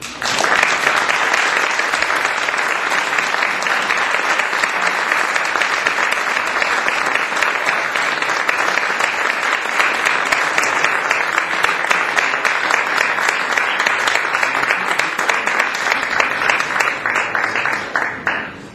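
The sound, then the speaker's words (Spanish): Audience applause at a song concert runs for about nineteen seconds as a dense, even wash of many hands clapping, loud and sustained with no voices over it. “Por favor, reciban con un gran aplauso a Tita Parra.”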